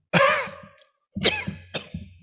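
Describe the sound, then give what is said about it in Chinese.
A person coughs in three harsh bursts. The first is the longest, and the next two follow closely after a short silence. “哎呀，咳啦！ 哎，我咳嗽。”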